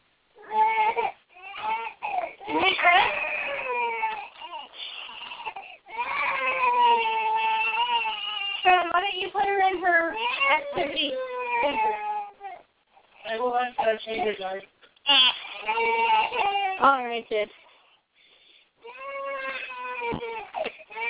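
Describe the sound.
A six-month-old baby girl crying: repeated loud, wavering wails that come in bursts separated by short breaths and pauses, continuing throughout.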